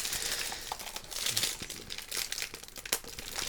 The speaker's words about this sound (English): Oh, I'm hearing promising sounds from the wrapper of the Blu-ray. He's almost... Blu-ray wrapping is designed to be opened after years of effort and research.